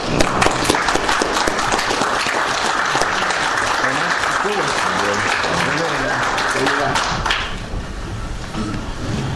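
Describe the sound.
A church audience at Zion Baptist Church applauds as it stands to welcome a speaker to the pulpit. The clapping is loud, dense and sustained, with voices underneath, and it eases off slightly toward the end.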